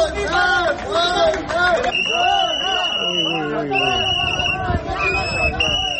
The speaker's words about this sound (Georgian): აქციის მონაწილეები საყვირებითა და შეძახილებით დეპუტატებს ქუჩებში აცილებდნენ.